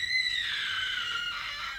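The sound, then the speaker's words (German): A sustained, high-pitched scream holds one shrill tone for nearly two seconds with a slight waver in pitch, loud and alone without speech. “Was war das? Hörte sich an wie ein Schrei?”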